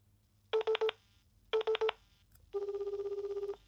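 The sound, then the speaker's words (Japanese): Telephone keypad being dialed to place a call: two quick bursts of four short electronic tones each, then a rapidly pulsing steady tone that lasts about a second. “今回はもう頭からアッキーさんに電話かけてみようと思うんですね。ではこれからもうアッキーさん早速かけてしまいますので、皆さんちょっとお待ちください。”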